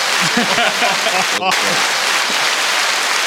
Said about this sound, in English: Give yourself, you got some applause over there, man. Give yourself some applause.